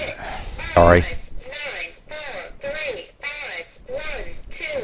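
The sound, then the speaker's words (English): A phone's automated caller ID voice announces an incoming call: a sharp burst, then a synthetic voice speaking a run of evenly spaced, clipped syllables at moderate loudness. “That's my annoying caller ID. Sorry about that.”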